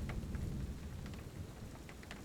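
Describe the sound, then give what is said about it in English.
A heavy rainstorm: a steady, faint hiss and patter of rain that stays even throughout, with no other sounds. “Sounds like the storm's getting heavier.”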